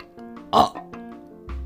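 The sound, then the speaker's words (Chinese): A single short, loud burp after eating lots of bananas, dates, tangerines and strawberries, standing out briefly from a quiet background. “小狮子花花终于打了一个饱嗝”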